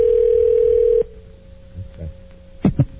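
A phone call rings through while waiting for voicemail: a steady, low, humming ringback tone holds for about a second and then cuts off, leaving faint line noise and a couple of soft clicks.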